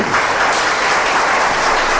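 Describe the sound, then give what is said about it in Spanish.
Applause from a crowd at a religious gathering, offered in praise of God: dense, even clapping that stays loud and steady throughout, with no voices standing out. “¿Cuántos le pueden dar un aplauso al Señor?”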